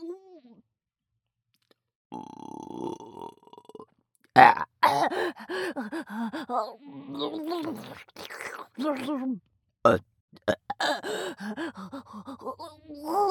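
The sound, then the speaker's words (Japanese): A long, rough burp rumbles out in a steady buzzy stretch, then a voice starts talking with breathy gasps between phrases. “もうくそ汚ねえゲップ出る。”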